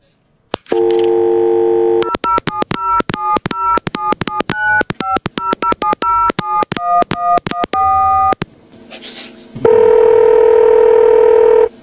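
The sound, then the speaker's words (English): Telephone number being dialled: a steady dial tone, then a rapid run of many touch-tone dialling beeps at shifting pitches, followed by a short pause and a loud, steady ringing tone. “I do actually have his number. It's an interesting number. Dial it, boys. Give it a dial.”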